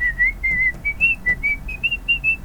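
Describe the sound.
A person whistles a clear, high tune of many short wavering notes that shift up and down in pitch, steady and unaccompanied, with no voices.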